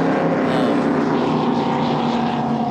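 A 2006 Cigarette racing powerboat roars at full throttle as it runs on the water, riding fairly wet. Its loud, steady engine drone holds unbroken for the whole stretch, with no pauses or changes in pitch.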